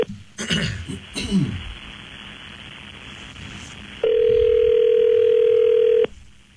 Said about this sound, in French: Oui, il est en train de composer ça. Ton interurbain, c'est plus long, je pense.